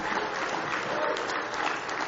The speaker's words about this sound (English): One more hand clap of praise tonight.